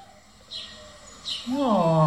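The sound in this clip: A small bird gives two short, faint high chirps spaced apart, then a person starts talking.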